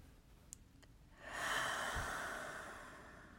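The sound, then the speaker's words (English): A single slow, deep breath taken during a guided relaxation, a soft breathy rush that swells in after a quiet start and holds steady to the end. “And take a deep breath.”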